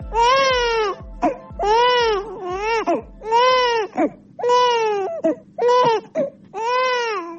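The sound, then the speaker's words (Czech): A baby cries in loud, repeated wailing bursts, each a strained rising and falling sob with short gasping pauses between, going on steadily throughout with no other voices. “Ovaj zvuk plača bebe u Bosni i Hercegovini, sve se slabije čuje.”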